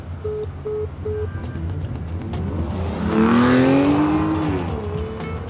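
A car being driven fast, its engine climbing in pitch and swelling to a loud peak partway through before easing off, over constant rushing road noise.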